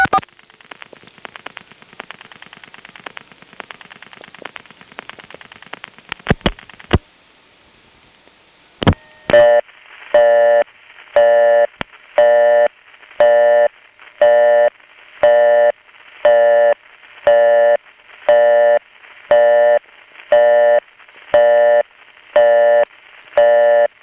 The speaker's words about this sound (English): From the staticky noise under that busy signal, you can really tell that this is a daytime phone call. That's typical Crossbar 5 activity noise.